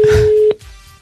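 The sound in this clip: Telephone tones while calling a company: a steady, clear dial tone holds, then cuts out with a brief sharp beep before quiet line hiss.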